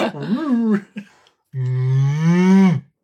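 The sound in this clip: A cow moos: a shorter wavering call, a brief pause, then one long, steady, low moo that holds its pitch before cutting off.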